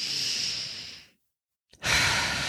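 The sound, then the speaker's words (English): Deep, slow breathing: a long breathy rush of air, a moment of silence, then another full breath, soft and airy, with no talking. “Okay, let's just breathe in”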